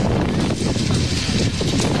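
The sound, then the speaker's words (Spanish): Strong wind in Ávila during a wildfire flare-up roars steadily and buffets the microphone, giving a dense, rumbling rush with little change across the moment. “Esto que escuchamos, el viento, ha provocado este fin de semana alguna pequeña reproducción del incendio de Burgondo”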